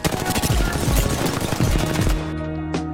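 Rapid automatic gunfire from a video game weapon whose bullets burst into colorful paintball-like splashes on impact, a dense, loud stream of shots lasting about two seconds before cutting off.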